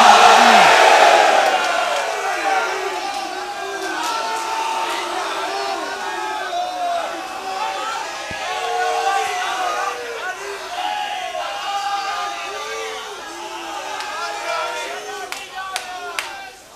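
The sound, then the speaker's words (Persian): A crowd at a religious gathering shouts "Ya Ali" in unison: many voices raised together in a loud, sustained roar that swells at the start and carries on in overlapping waves throughout. “به بالای دست علی دستی نیست، تو که زیر دستی بلند بگو یا علی”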